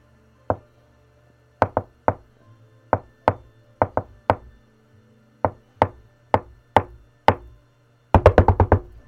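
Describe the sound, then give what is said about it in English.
Many sharp raps on a back door come in an irregular pattern of single and paired knocks. They end in a rapid flurry of quick blows, with no voices. “That is not a secret knock.”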